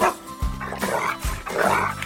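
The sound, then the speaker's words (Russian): A pet dog at home barks on command as a greeting, giving a few loud, harmonic barks in close succession with yelping edges, with no voices alongside. “Вот и Алтай, мой верный пес, с вами поздоровался”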